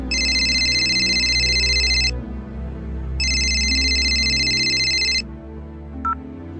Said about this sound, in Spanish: A eso de las 10 de la noche, el músico llamó a mi celular.